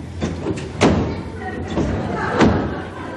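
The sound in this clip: A stuck wardrobe door that will not open is pulled hard and bangs, giving two heavy thuds with rattling between them, alongside voice sounds.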